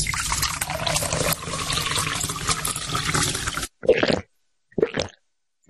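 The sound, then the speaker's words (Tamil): Cool buttermilk is poured in a steady liquid stream for several seconds, followed by a few short, separate bursts as it is drunk. “ஐயா நீங்க களைப்பா வருவீங்கன்னு தெரிஞ்சுதான் குளிர்ச்சியான நீர்மோர் தயார் பண்ணி வச்சிருக்கேன். இந்தாங்க ஐயா, குடிங்க ஐயா.”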